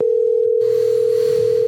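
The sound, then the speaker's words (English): A steady telephone tone sounds as a call goes unanswered toward voicemail, one loud unbroken pitch held for the whole stretch over a faint background hiss. “This guy gave up so much, he doesn't even pick up the phone anymore. Thank you for calling the roadway. Yeah. Just go straight to voicemail.”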